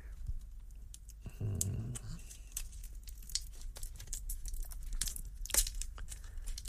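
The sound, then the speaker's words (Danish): Crinkling and tearing of thin foil wrapping on a cigar, a dense run of many sharp crackles with a brief lower rustling burst early on. No voices. “Skal jeg se, hvordan man kan åbne den? Ja, det går vist meget nemt. Der er sådan noget folie om den.”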